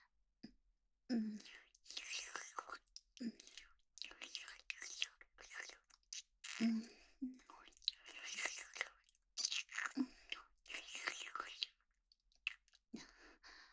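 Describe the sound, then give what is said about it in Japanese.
Many wet kissing and mouth sounds in a quick, irregular series of soft smacks and slurps, mixed with close, quiet whispering. “でもお兄さん、キスうまいですね。”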